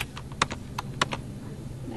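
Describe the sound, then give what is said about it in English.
Computer keyboard typing during data entry at a law firm office: a few sparse, crisp key clicks at an irregular pace over a steady low background hum. “She'll spend the day typing case summary data into the firm's computer system.”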